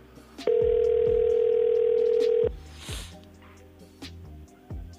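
A telephone dial tone plays while a call is placed: a loud, steady single-pitch tone lasting about two seconds that then cuts off, followed by a few faint clicks and low sounds.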